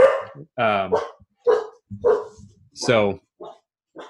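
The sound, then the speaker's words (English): A dog barks in a run of about seven short, sharp, loud barks, irregularly spaced, with brief silences between them. “Oh, sorry, that's my dog there.”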